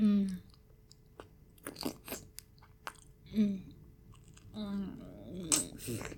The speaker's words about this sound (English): This is the sweetest nectarine I have ever tasted.